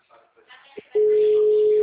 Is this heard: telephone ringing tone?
yes

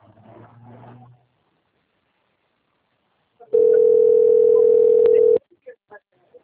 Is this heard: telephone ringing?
yes

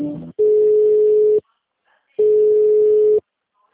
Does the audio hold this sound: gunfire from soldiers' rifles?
no

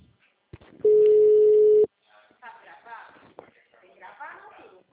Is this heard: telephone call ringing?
yes

